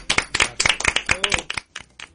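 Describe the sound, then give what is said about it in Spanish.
Applause after a poem reading: many distinct claps from a small group, bunched in an irregular patter that thins out toward the end, with a faint voice in the middle. “Bonito, un aplauso. ¡Bravo!”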